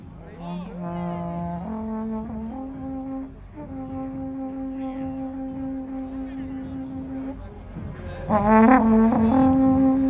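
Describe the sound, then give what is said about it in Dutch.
A huge horn is blown at an outdoor event, playing long sustained, droning notes that step up through a few pitches, with one note held for several seconds before a louder, higher closing phrase, over faint voices. “Ze gaat nu op die enorme toeter blazen.”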